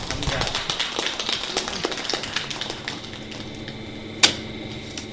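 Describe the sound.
Film projector switched on to start a cinema screening, a rapid rattling run of mechanical clicks, then a single sharper, louder click near the end.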